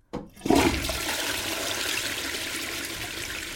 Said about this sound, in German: Und wer schon aufs Klo kann, darf auch spülen. Ja, lass mich spülen!